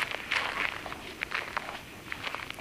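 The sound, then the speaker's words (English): Footsteps on a road covered in ice: a run of crisp, crunchy steps in an uneven rhythm, fairly quiet and heard alone. “As we walk, and the road itself is nothing but ice.”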